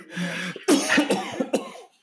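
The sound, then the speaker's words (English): A few harsh, sudden coughs burst out in quick succession, fairly loud and alone, after a stretch of low steady background noise. “I was trying not to cough, but it caught up to me.”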